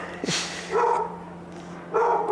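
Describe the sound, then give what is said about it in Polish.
A dog barks twice, loud and clear, with a short pause between the barks, on the set of a program being recorded with cats. “Jak nagrywają program z kotami, rozumiesz, obok i psa wpuścili.”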